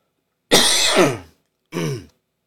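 A person clears their throat to ease a tickle, two rough, gravelly bursts: a longer, harsher one followed after a short pause by a briefer, lighter one, with no talking.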